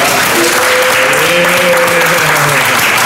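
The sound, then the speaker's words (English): Dense applause and cheering from an audience welcoming a guest, loud and continuous for the whole three seconds, with a faint tonal voice line running through the noise. “So let's make some noise for Champion.”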